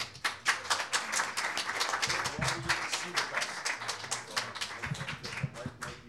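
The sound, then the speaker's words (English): Audience applause welcoming a poet to perform: fairly faint, dense clapping from many hands, continuous for the full six seconds with a fluttering texture. “Please give Suzanne Owens a big welcome.”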